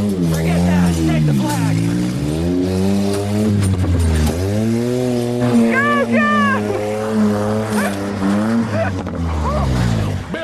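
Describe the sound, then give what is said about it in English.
A vehicle engine revs hard in an off-road team challenge as the wheels try to climb onto a bent bridge, its loud, throaty drone repeatedly rising and falling in pitch throughout. “The gearhead's bridge is bent in the middle and they can't get the wheels up onto the end of it.”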